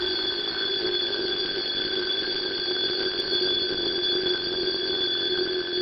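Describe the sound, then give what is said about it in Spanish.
An alarm clock rings loudly and continuously, a bright, steady, high-pitched electronic tone that holds unchanged throughout, with no talk. “Pero en ese preciso instante, un sonoro despertador le salvó la vida, despertándola a ella y a su fallido protector Glenn.”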